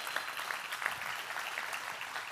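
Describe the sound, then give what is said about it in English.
Audience applause at a church service: dense, steady clapping that holds at an even, fairly faint level for the whole clip. “let's give a round of applause.”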